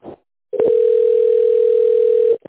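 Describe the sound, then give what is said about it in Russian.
A steady telephone tone sounds while a call is transferred to an operator: one unbroken mid-pitched note lasting almost two seconds, loud and even, with faint clicks just before it starts and as it cuts off. “Вызов переводится на оператора.”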